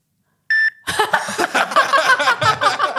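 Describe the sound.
A single short electronic beep marks a telephone speaking clock time signal. It is brief and clear, and voices follow right after it.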